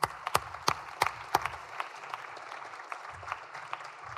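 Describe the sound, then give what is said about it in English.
Applause in a Senate chamber welcoming visiting students, a modest patter of distinct individual claps, fairly faint, thinning out over about four seconds. “All right, please provide them a warm welcome.”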